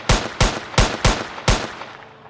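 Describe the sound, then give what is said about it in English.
Five sharp, quick gunshots from a British-issue Smith & Wesson .455 caliber six-round revolver, each a loud crack with a short decaying tail, evenly spaced in rapid succession. “Clutching a British issue Smith & Wesson .455 caliber 6-round revolver, Udem dashed forward, and from just 18 inches away, he fired 6 quick shots.”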